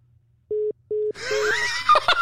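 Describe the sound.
Two even, mid-pitched telephone beeps sound after a caller hangs up, separated by a short gap. Laughter and several voices follow straight after.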